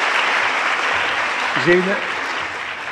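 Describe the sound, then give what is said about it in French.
Applause from an audience after a lecture: dense, steady clapping that fills the whole clip at an even level, with a brief voice rising over it midway. “Oui, on va vous applaudir d'abord.”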